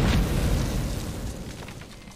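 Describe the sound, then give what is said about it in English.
A flashbang grenade detonates in a video game: one loud, broad burst at the very start that rumbles and hisses as it slowly fades over about two seconds. “I can't say I've ever seen a hockey puck flashbang like that.”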